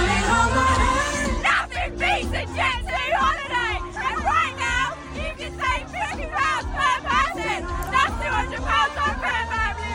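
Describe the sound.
Concert-goers, including young women, shout a Jet2 holiday advert slogan along with a pop song at a live concert; excited yelled voices over a thick babble of crowd noise and low, booming music.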